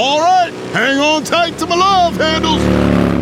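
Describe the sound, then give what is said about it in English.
A motorcycle fitted with a beefy custom muffler, new air intake and quick shifter revs. The engine note climbs in pitch and grows louder near the end after a voice speaks over its idle. “Now let's hear that muffler purr.”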